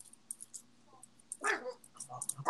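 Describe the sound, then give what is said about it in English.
A dog barking with a raspy, hoarse, wheezy voice, one faint rough burst in the middle with smaller scattered sounds around it, quiet overall. “What is that? That was the dog.”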